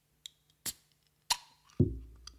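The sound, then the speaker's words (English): A can of Tao Ti mango juice drink with nata de coco being opened: a few sharp metallic clicks, then a lower, fuller pop that fades quickly, with very little hiss. “let's crack the can”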